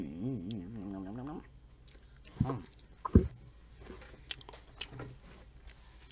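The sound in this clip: Someone bites and chews chicken nuggets coated in scorpion pepper sauce and dipped in ranch. A few sharp, soft crunches and wet chewing sounds follow a brief stretch of talk at the start.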